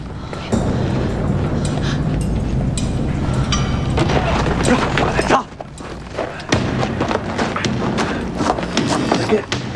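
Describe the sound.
Horse hooves clip-clop as a horse is ridden, in a steady run of dull, irregular thuds with a brief break near the middle.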